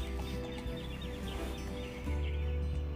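Birds calling before sunrise in a continuous, fairly faint chorus of overlapping chirps, with fowl-like clucking mixed in over a steady background.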